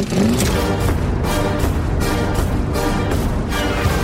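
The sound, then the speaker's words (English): Loud, dense soundtrack from a trailer for the latest Mad Max film, with a steady pounding beat driving through a thick roaring wash of sound from start to finish. “one of dozens of firms that specialize in producing movie trailers, like this one, for the latest Mad Max film.”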